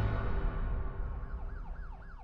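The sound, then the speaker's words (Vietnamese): A police car siren sounds, starting over a loud low rumble and then wailing in a few repeated rising and falling sweeps that grow more distinct toward the end. “Xe cảnh sát dừng lại trước cửa tòa nhà Riverside”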